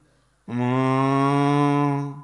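A single long cow moo, a thirsty cow lowing from afar near a pond that holds a crocodile. The low, steady call lasts just under two seconds, is loud, and is heard alone.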